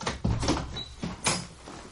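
A door being opened in a home: a few short, faint clunks and rattles spread across a quiet moment, with no voices.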